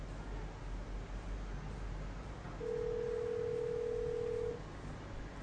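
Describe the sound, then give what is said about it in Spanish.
Single steady ringback tone of an outgoing telephone call, a clear mid-pitched beep lasting about two seconds over faint background hiss. “Bueno, está llamando.”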